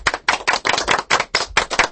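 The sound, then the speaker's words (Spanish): Hand clapping for interview guests: a run of sharp, loud claps in an uneven rhythm, each burst separated by short gaps, with no talking. “Y yo voy a darte a vosotros un aplauso.”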